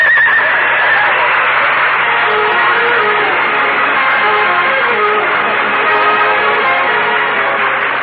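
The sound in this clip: A horse whinnies while its hooves clop along, pulling a sleigh. The sound is dense and continuous throughout, with people talking over it.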